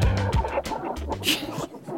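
Chickens cluck in a sound effect, a quick, continuous run of clucks and squawks that stays loud for about two seconds.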